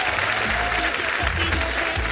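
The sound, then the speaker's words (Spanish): Applause dedicated to waste collectors, a loud, dense clatter of many hands clapping without a break, with low voices talking underneath. “y este aplauso va en general para todos los recolectores y recolectoras de nuestro país”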